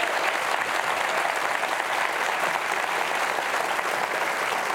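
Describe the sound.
Audience applause welcoming Governor Mike Huckabee: dense, steady clapping that holds at an even level for the whole stretch, with no voices breaking through.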